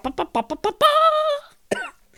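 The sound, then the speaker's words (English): A person imitates a trumpet with their voice: five quick staccato blasts, then a long buzzy held note, then one last short blast. “I tried to impersonate a trumpet, and it turns out there's a reason that trumpets are trumpets and humans are humans.”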